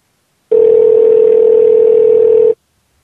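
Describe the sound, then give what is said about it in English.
A single telephone ring tone on a call holds one steady, loud, unbroken pitch for about two seconds, then cuts off, with silence around it. “Why is it ringing?”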